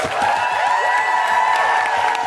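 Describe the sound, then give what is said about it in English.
Audience at a live comedy show applauding and cheering a performer at the close of the evening, with continuous clapping beneath overlapping whoops and shouts that rise and fall. “Could you give a big, big round of applause for the wonderful Coco Brown?”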